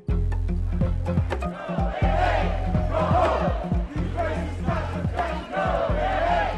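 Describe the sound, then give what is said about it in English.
Protesters at a Baltimore victory rally chant and shout in unison. The rhythmic surges of many voices stay loud and steady, with brief dips between phrases. “That's the sound of protesters Saturday in Baltimore at what some called a victory rally.”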